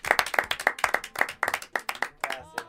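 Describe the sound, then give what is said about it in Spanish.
Applause from a small audience after a jazz and bossa nova recital: many sharp, crisp hand claps follow in quick, slightly uneven succession without pause. “Sí, un aplauso para el chico.”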